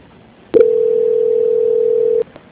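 A telephone line tone sounds during a call transfer: one steady, mid-pitched tone holds for under two seconds, then cuts off, with no voices.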